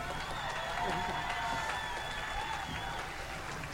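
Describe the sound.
Audience applause greets a guest from Australia, a steady, dense wash of clapping that holds at an even level for the whole stretch, with voices mixed faintly into the crowd noise.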